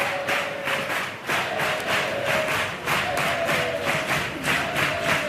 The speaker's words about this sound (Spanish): Recibiendo los ánimos del público de este gran teatro Falla